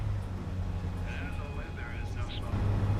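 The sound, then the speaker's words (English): A bus travelling down a highway at night gives a steady, low engine rumble and road noise that holds constant throughout and swells a little louder near the end. “Now, the lights of the city glow in the distance as the bus travels down a highway.”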